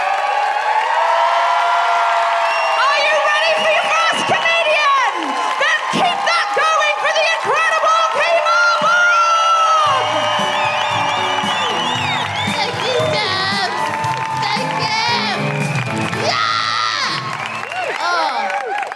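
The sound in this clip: A live audience cheers, whoops and shouts at a festive show at the Lowry in Salford. The many voices stay loud and dense for the whole stretch.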